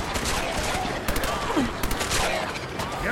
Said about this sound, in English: this full auto submachine gun is doing amazing